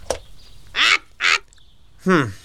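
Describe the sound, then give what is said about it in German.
A bird calls three times in harsh, loud honking squawks with a duck- or goose-like quacking quality. Each call is separated by brief quiet, and a sharp click comes just before the first. “Halt den Schnabel, Blatty. Dieser Vogel.”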